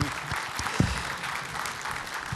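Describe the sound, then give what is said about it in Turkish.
Applause from an audience thanking a teacher-musician, a steady dense patter of clapping over the whole stretch with one brief louder burst near the middle, fairly faint throughout. “Alkışlar hocamıza.”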